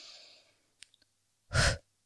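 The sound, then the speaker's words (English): A single short, forceful exhale during a breathing exercise: one breathy rush of air, strong and brief, standing alone after faint earlier breath noise and a couple of tiny clicks. “And do short exhale, letting all of the air out at once.”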